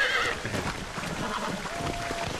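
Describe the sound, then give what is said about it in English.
A horse whinnies shrilly as a unicorn is broken in a video game. The high whinny comes at the start and then gives way to a dense, noisy, agitated texture that runs throughout. “that audio is of John Marston breaking the unicorn from Red Dead Redemption Undead Nightmare”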